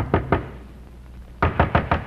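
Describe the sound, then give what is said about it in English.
Knocking on the door of an innkeeper at a port: two sharp raps, a pause, then four more evenly spaced knocks, clear and alone. “the Count had come into the town and knocked on the door of an innkeeper of the port.”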